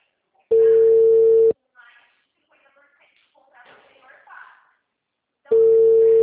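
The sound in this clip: Telephone ringback tone on an outgoing call: two long, steady beeps several seconds apart, with faint rustling in the quiet gap between them.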